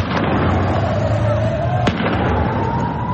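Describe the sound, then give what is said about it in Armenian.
A few sharp cracks of gunfire from security forces on a residential rooftop, firing at protesters during street demonstrations in Iran. The shots stand out from a steady, loud wash of crowd and street noise. “Այս տեսագրության մեջ տեսնում ենք, թե ինչպես են բնակելի շենքերից մեկի կտուրին դիրքավորված իրանցի ուժայինները կրակ բացում բողոքի ցույցի մասնակիցների ուղղությամբ։”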